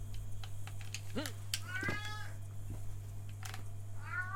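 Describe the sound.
A cat meows a few times, its calls soft and faint. The first has a short arching pitch, and a brief cry comes near the end. A steady low hum and a few soft clicks run underneath.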